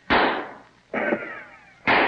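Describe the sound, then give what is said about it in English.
Musket shots ring out as three loud, sharp blasts, each with a short decaying tail, spaced about a second apart and standing alone without voices. “two shots and two dead”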